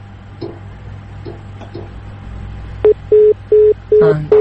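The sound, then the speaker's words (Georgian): A telephone line-drop tone sounds after a call disconnects. Faint clicks tick over a quiet, humming line, then a run of evenly spaced, mid-pitched beeps starts partway through and repeats to the end. “ტელეფონიც გაითიშა.”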